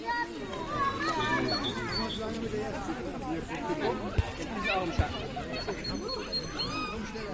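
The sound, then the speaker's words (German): Children playing in a forest, with lively chatter, shouts and murmuring voices blending into a busy, continuous hubbub, plus a couple of sharp knocks partway through. “Spielplatzgeräusch nervt, weil schreiende Kinder nerven, aber so in dem Wald hat das eine ganz andere Akustik. Und ich habe es, ja, aufgenommen.”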